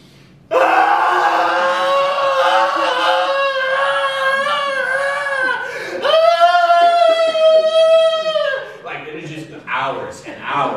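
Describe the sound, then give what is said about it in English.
A voice imitates the loud mourning wail heard at Indonesian funerals: long, sustained, wavering cries that hold loud and steady for many seconds, then break into shorter, uneven sounds at the end. “it reminds me of in Indonesia, where I lived for a number of years, and they would have this tradition where people, when they died, they would have this loud, loud, loud wailing. It sounded like this.”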